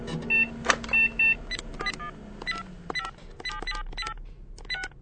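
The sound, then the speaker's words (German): Electronic keypad beeps as a mobile phone number is dialed: many short tones in quick, uneven succession, fairly quiet, over a low steady hum. “ruf jetzt bitte Paula an. Du hast doch ihre Handynummer.”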